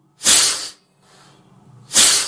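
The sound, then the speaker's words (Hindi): A black cobra with its hood spread hisses in two loud, sharp bursts of breathy noise separated by a fainter, softer hiss. “अचानक एक बच्चे ने आंख खोलकर देखा कि सामने एक काला नाग फन फैलाए हुए है।”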